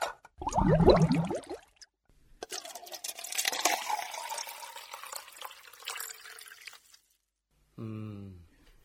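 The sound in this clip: Water is poured out for drinking, a steady, splashy pour lasting several seconds, with brief sounds before it and a voice speaking afterward.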